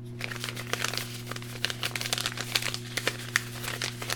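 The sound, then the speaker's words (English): Paper envelope being handled and torn open at an awards announcement, giving many quick crinkling, crackling rustles in an irregular flurry over a steady low hum. “Can I have the envelope, please?”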